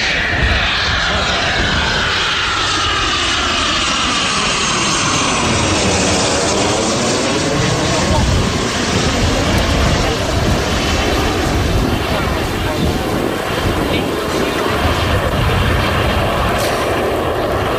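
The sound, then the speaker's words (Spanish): Loud, continuous roar of a Eurofighter combat jet flying during training flights at an air festival in Gijón. The engine noise fills the whole stretch at a steady, heavy level, with a broad sweeping tone that shifts as the jet passes. “Este es el sonido del Eurofighter, un avión de combate de última generación”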